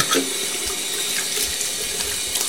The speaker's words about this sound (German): Schön Hände waschen.